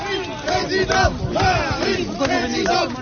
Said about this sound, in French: Accueil houleux pour Emmanuel Macron sur le site de l'usine Whirlpool d'Amiens